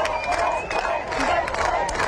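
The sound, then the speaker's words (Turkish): A volleyball crowd screaming and cheering during a match against Brazil, a loud, sustained roar of shouting voices with surging peaks of chanting throughout. “Ben sustum ve size buradaki alkışı, insanların çığlığını siz duyun.”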